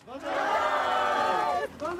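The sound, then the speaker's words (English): Hakamada support group crowd cheering, a loud, sustained burst of many voices shouting together for nearly two seconds, dipping briefly just before the end. “After 5 decades of campaigning in March, the Hakamada support group cheered after finding out that Hakamada had been awarded a retrial.”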